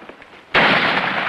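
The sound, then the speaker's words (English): Gunfire striking a steep rock face as soldiers climb under attack: a sudden harsh burst erupts about halfway through and stays loud and crackling to the end, after a quieter opening. “As gunfire sparks on the rock, Bill races up the steep incline.”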